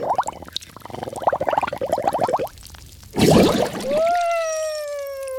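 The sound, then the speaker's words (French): Splashing water in a bathroom sink, a bubbly, gurgling sloshing that breaks into a louder rush of water. “Mais qu'est-ce que c'est que ce bruit? Doudou, c'est toi? Mais qu'est-ce que tu fais à barboter dans le lavabo?”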